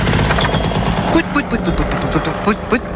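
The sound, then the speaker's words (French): A paramotor engine sound effect plays: a rough, loud buzzing drone with rapid chugging pulses, and a voice speaks over it in the second half. “Qu'est-ce qui vous ferait plaisir, dites-moi Jean? Paramoteur, on y va.”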